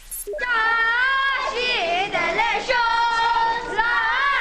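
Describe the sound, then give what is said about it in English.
Children cheer and shout together to welcome a visiting Tibetan spiritual leader to Washington, a sustained, high-pitched chorus of young voices that rises and falls in loose unison throughout. “That's the sound of children welcoming the Dalai Lama to Washington.”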